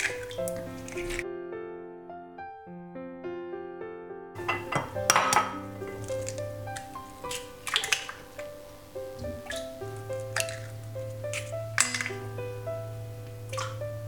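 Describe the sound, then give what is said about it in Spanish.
Eggs being put into a bowl while cooking: a few light clinks and taps of shell on the bowl with soft wet sounds, over quiet steady background music. “Pongo los huevos en el bol.”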